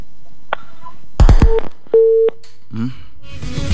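Telephone tones after a caller hangs up during a live call: a few short, steady electronic beeps, clear and fairly loud, then quieter noise as the line goes dead.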